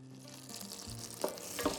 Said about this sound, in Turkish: İlk etapta tereyağıyla başlıyoruz. Tereyağların güzelce erimesi lazım.